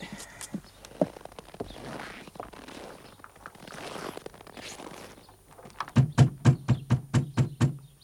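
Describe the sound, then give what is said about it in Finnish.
Knocks hammer on the closed, ornately decorated gate of a merchant's house in a rapid, loud, evenly spaced series after a quieter stretch. “Sekin portti kiinni ja ikkunaluukut suljettu, herra kreivi. Minä kolkutan.”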